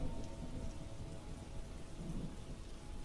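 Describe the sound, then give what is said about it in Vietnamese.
Heavy rain pours steadily onto a corrugated metal roof at midnight, a dense, continuous rushing roar that holds at an even level throughout with no voices. “Nửa đêm, Trời mưa càng dữ dội. Tiếng ào ào đổ xuống mái tôn làm cho tôi và thằng Nam Cận chẳng tài nào ngủ nổi.”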